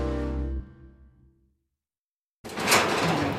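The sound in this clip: A conservator opens the storeroom door, producing a broad, rushing scrape that starts abruptly after a silent pause. Fading musical tones come before the quiet gap.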